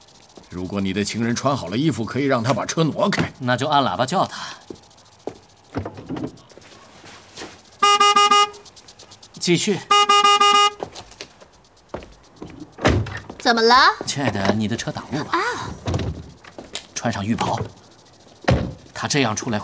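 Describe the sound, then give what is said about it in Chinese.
Two sustained car horn blasts, each lasting about a second, come a couple of seconds apart between stretches of people talking. “如果你的情人穿好了衣服，可以让他把车挪开。那就按喇叭叫他。”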